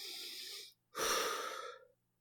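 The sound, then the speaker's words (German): A deep breath alone without speech: two long, airy rushes of air separated by a brief pause, the second louder and fuller before it fades out. “Entspann ja. dich. Atme tief durch.”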